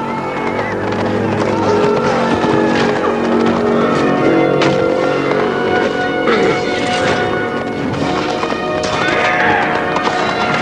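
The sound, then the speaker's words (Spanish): Horses charging and galloping as cavalry ride out through a broken gate in battle, with dense, continuous drumming hoofbeats, repeated loud whinnies and neighs, and a churning wall of noise throughout. “Cargan a caballo.”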